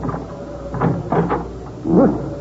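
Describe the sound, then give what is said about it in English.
An old junk shop door is tried and opened at night: a few dull knocks and rattles, then a louder clunk near the end. “Let's try the door.”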